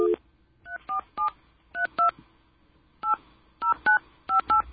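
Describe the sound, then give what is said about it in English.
Touch-tone beeps of a telephone number being dialed, ten clear tones at an uneven pace with short gaps and one longer pause partway through, fairly loud against a quiet background. “Would you like me to dial the number again? Let's dial the number.”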